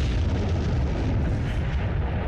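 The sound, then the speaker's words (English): Bomb explosions as a sound effect: a heavy, continuous low rumble with rolling booms that stays dense and loud from start to finish. “They just, yeah, there they are again. Those crazy bombs. Those crazy bombs.”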